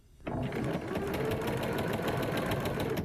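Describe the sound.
A sewing machine stitches a seam, starting abruptly and running in a fast, steady mechanical whir with rapid needle clatter. The sound holds an even level until the end.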